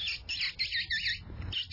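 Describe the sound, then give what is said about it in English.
Mouth kissing squeaks used as a predator call, a voice imitating a small animal's distress: a few shrill, high squeaks in quick succession with brief gaps, fairly faint and with no talk. “I kill most of my predators with a simple call just of kissing. Just sounds like this.”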